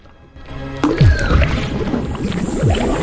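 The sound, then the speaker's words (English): Watery, bubbling effects sound as a floating robot head in a video game releases dark brown bubbles. A few swooping, falling tones run over a loud, dense game soundscape. “The floating robot head releases dark brown bubbles. They hover around Junie.”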